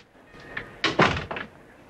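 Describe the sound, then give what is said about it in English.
A door closes behind someone entering an office: a short cluster of wooden clunks and latch knocks, loudest in the middle, with nothing else heard. “she heads into Yelburton's office, closing the door behind her”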